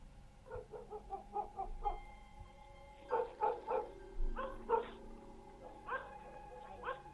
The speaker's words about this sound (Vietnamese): Bỗng nhiên, chó nhà bên kia sủa gằn lên từng tiếng.